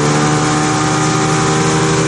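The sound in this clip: Engine of a motor launch running on a boat trip: a loud, steady drone that holds an even, unbroken pitch throughout, with no voices.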